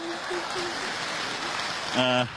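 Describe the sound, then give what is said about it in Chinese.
Warm audience applause for a child singer at a Beijing opera and folk-art stage show: a dense, steady patter through the whole clip, with a voice briefly rising above it near the end. “谢谢爷爷奶奶叔叔阿姨给你热烈掌声。”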